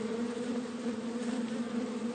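Bees buzz continuously around two ailing beehives that have stopped yielding honey. The dense, steady drone carries a low hum beneath it, unbroken throughout and with no voices.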